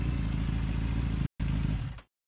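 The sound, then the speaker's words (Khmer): A motorcycle rides up with a loud, steady, low engine rumble, then the engine cuts out abruptly near the end as it stops. “ហេងបានជិះម៉ូតូមកឈប់នៅមុខតូបសាវ៉េត”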